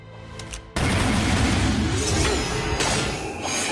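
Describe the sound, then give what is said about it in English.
A rapid burst of gunfire erupts abruptly after a near-silent opening, then holds as a loud, dense, continuous crackle of shots to the end. “John shoots a bunch of bullets at Viola, and Viola cuts them all in half with the sword.”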